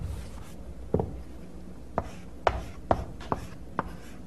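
Writing on a board during a lecture on lambda notation, heard as six sharp strokes and taps spaced irregularly over a quiet background.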